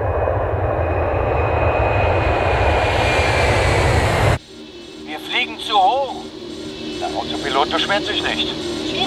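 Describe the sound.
A loud, steady aircraft engine drones in flight before landing, then cuts off abruptly halfway through and gives way to quieter sounds with voices.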